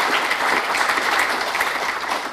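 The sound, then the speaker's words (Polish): Dense, steady applause from a congress audience thanking its hosts. Many hands clap continuously at an even level throughout, with no voices standing out. “więc także oklaski dla naszych gospodarzy, którzy nas gościli.”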